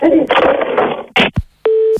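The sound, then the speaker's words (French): A telephone being hung up: after a stretch of talk, a couple of quick clattering clicks, then a steady, even line tone that holds to the end. “Bon, je vais raccrocher, j'en peux plus.”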